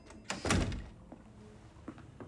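A door is pushed open in an office at an air base: one heavy thunk near the start, then a few faint clicks and knocks as it settles.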